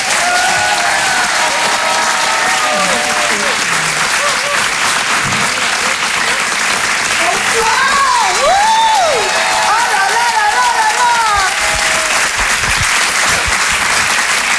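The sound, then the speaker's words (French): Audience applause and cheering for a comedian at a comedy show. Loud, sustained clapping holds steady throughout, with whistles and shouts rising above it. “Je vous demande de faire du bruit, s'il vous plaît, pour Judith Delaire.”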